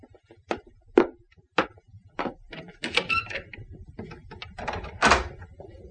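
A cottage door is unlocked and opened: a few sharp clicks and knocks, then clattering, rattling handling noises and a duller thud near the end.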